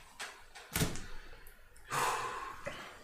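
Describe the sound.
A door bangs as people move inside, a sharp thud near the start followed by a longer rush of rattling noise, with soft knocks and breathing around it.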